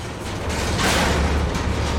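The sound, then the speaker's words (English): A structure collapsing in a video game, heard as a dense rumbling, creaking mechanical roar that swells into a louder burst midway before settling into a steady grinding rumble, with no talk. “Careful. This place is falling apart. Well, the thing nearly collapsed out from under us”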